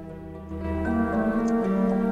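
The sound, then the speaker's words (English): A clock and its workings tick steadily beneath sustained low musical tones that swell in loudness after the first half second and then hold steady. “A clock and its workings appear from the darkness.”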